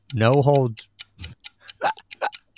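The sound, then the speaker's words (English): A timer ticking: a run of sharp, fairly even clicks, about a tick every quarter second, following a brief voiced tone at the start, with a low steady hum underneath. “start the timer”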